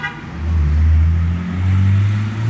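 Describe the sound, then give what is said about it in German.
Loud car engine revving as a show-off driver races through a village and floors it near the edge of town, deep throaty roar swelling twice with strong low rumble, sustained and without voices. “ich habe auch dieses Problem mit den Posern. Die rasen durch Ludweiler, geben dann kurz vor Ende des Ortes nochmal richtig Gas”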